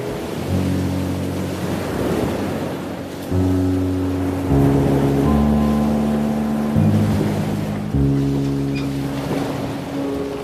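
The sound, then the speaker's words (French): Sea waves wash in a steady broad hiss with soft swells. Sustained low droning chords play over them and shift a few times. “as-tu déjà pris une minute entière sans rien d'autre pour écouter la mer ?”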